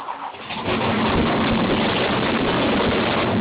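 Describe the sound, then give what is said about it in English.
A car engine revs, surging up after a brief quieter start into a loud, sustained roar that holds steady to the end. “What's that, a Honda? Yeah. Hell nah. Horsepower. Hey, that's a Batmobile.”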